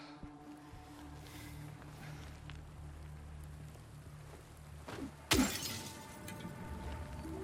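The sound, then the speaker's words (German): A glass window pane smashes in a video game. A steady low hum runs for a long stretch, then a single sudden loud crash bursts in, trailing into scattering debris. “Die Schwestern rasten aus, wenn ich hier eine Scheibe einschlage.”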